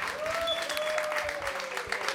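Quiet, even applause from a rock concert audience as band members are introduced on stage, a continuous patter of many hands clapping with no pauses.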